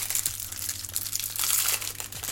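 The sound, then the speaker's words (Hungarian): Small round tiles from a bonsai building set pour out of a bag beside the bonsai's roots, making a continuous dry crinkling, rattling patter with no talk over it. “Ez a harmadik zacskó abból áll, hogy fogom ezeket az apró kis kör alakú csempéket, és beszórom ide a bonsainak a gyökere mellé.”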